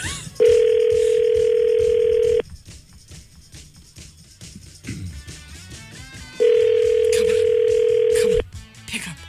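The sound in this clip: Ringback tone of an outgoing phone call: two long, steady, loud tones about four seconds apart, with quieter voices talking in the gap between them.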